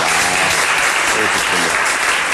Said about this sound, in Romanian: Dacă știam că așa se aplaudă, mai ziceam de astea bunică.